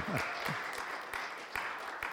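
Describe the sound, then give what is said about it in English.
Audience applause during a church sermon: a faint, sustained patter of clapping with a few louder bursts scattered through it. “You should applaud for that or laugh or something.”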